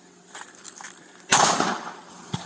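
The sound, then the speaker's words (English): A single loud, sharp gunshot-like crack bursts out and decays during a police shooting incident, with a few faint clicks and a low background hum around it. “shots fired. Shots fired. Partner's down.”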